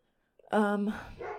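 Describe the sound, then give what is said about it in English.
A dog gives a single loud, sharp bark with a strong harmonic tone, followed right after by a voice talking. “this dog is active right now.”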